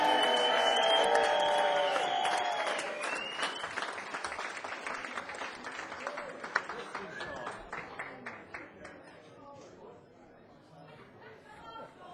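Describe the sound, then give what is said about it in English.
Loud audience applause fills a club as a performer is welcomed onstage, dense clapping mixed with crowd chatter that starts strong and gradually thins and fades over about twelve seconds. “Please put your hands together. Let's have a big Club 85 welcome for the wonderful, mighty Hulk Lord!”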